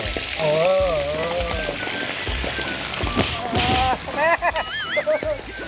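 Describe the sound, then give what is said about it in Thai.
Fish frying in a salted pan over high heat, with steady sizzling and spattering crackle while people talk over it. “โรยเกลือ โรยเกลือลงไป เวลาทอดปลาจะได้ไม่ติดก้นกระทะ ครับนี่ แล้วก็ใส่ปลาลงไปเลย”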